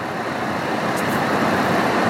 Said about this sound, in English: God damn, this traffic.